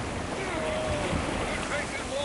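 Breaking waves crash against a small wooden boat overloaded with five grown men and heavy cargo. A steady, loud rush of surf and wind noise runs throughout, with no clearly separate wave impacts.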